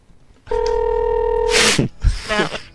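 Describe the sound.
A telephone ringing in a room: one steady electronic ring tone holds for about a second, then breaks off into brief bursts of noisy clatter.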